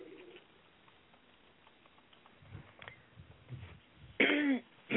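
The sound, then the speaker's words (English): A throat-clearing cough from someone with something stuck in the throat: one short, loud, rasping burst near the end. It stands out against quiet, faint low rumbles, with no talking. “Sorry, I had something stuck in my throat.”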